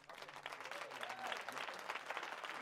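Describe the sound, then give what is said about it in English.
Studio audience applause fills the whole stretch as a dense, steady wash of many hands clapping, fairly loud and even, with no voices standing out above it. “Who let the studio audience into my personal Al studio? Get out!”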